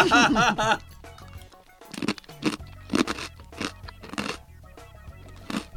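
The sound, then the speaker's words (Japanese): Crunching and chewing of a large, hard-fried rice cracker: a short voice at the start, then a series of sharp, crisp crunches at irregular intervals with quieter chewing between them. “いい音ですね。やっぱ大きいから。 大きくて、 うん、噛み応えある。”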